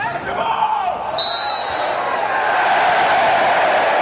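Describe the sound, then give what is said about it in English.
Football crowd noise at Brighton's Amex Stadium during a friendly against Chelsea: a broad, continuous roar that swells louder toward the end, with a brief high whistling tone near the start. “A sound not heard in English football stadiums since the coronavirus pandemic began. Brighton welcomed back fans at the Amex Stadium for a friendly against Chelsea, which ended in a 1-1 draw.”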